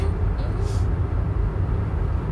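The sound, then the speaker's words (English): Steady road rumble from a car driving on a freeway, a dense low roar that holds at an even level throughout with no distinct events standing out. “Sorry for the background noise. We're driving. We are on a freeway.”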